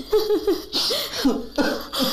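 A baby crying in a few short, wailing bursts, with breathy pauses between the cries.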